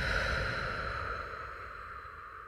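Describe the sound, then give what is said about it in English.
A deep breath drawn in through the nose and slowly exhaled, a soft, steady breathy rush that gently fades over a quiet sustained tone. “taking a deep breath in through your nose. And exhaling it out.”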